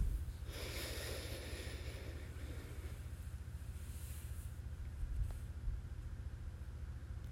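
A slow exhaling breath during a guided breathing exercise, one soft, drawn-out airy exhale early on, faint and followed by a quiet stretch.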